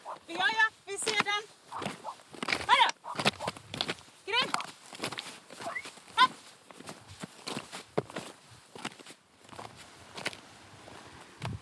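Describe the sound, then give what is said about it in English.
Footsteps of people walking outdoors toward a cabin on the trail to Tormodsbukta, a steady run of soft steps that continues beneath a voice talking nearly throughout. “We have now started our walk towards the cabin that we're going to visit today.”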